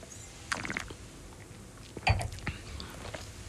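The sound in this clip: Mencía red wine being tasted, sipped with air drawn into the mouth: a few short, soft, wet slurping and sucking sounds, with quiet gaps between them.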